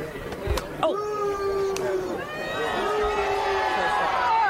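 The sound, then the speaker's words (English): Crowd booing on a street in York after an egg is thrown at King Charles. A couple of brief sharp knocks come early, followed by long drawn-out boos from several voices over a murmuring crowd. “he was visiting York and was greeting people on the street when it happened. And here is the sound of the actual egg hitting in front of him.”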